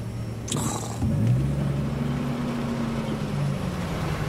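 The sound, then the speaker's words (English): Car driving up to a cabin at night, a steady low engine hum and drone with a sharp click early on, the rumble growing a little louder and fuller after about a second and then holding evenly. “Now it's nighttime, and Mort's driving up to the cabin.”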